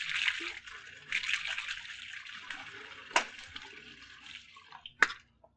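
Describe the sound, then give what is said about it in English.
Running tap water hisses steadily as someone washes their hands, joined by two sharp knocks before the flow stops. “No, no. Wait till I wash my hands.”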